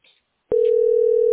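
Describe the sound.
A telephone line tone during a call: after a brief faint sound and a short silence, a single steady mid-pitched tone starts abruptly and holds loud and unbroken to the end.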